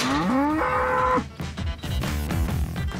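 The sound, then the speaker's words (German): A bull moos loudly. A long, strongly voiced call is followed by a second, rougher and more broken bout of lowing. “da ist unser Bulle”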